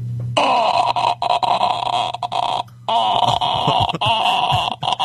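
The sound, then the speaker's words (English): A man with a sore throat vocally imitates the death rattle from the horror film The Grudge: a sustained, raspy, croaking groan broken by brief stutters and gaps, loud and alone. “Is that the death rattle, eh? Yeah, man. From the Grudge?”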